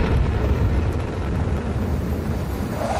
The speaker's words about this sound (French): Décollage.